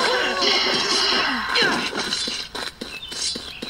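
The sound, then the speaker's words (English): A boulder strikes a player in a video game, with a loud smashing impact amid busy game sounds and chirpy tones, then several scattered thuds. “Made it past that blade, there's another one. Crap. Oh, someone got hit by the boulder too.”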